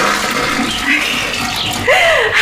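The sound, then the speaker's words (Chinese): Toilet flushing: a steady, loud rush of water that runs through the whole stretch and swells briefly near the end. “呀，俺咋没听见水响嘞？哎呀，忘了忘了，呀，忘冲水嘞。”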